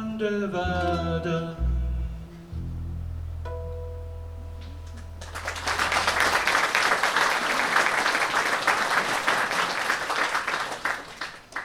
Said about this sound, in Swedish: Hörni, vi måste prata om det här med att klappa takten.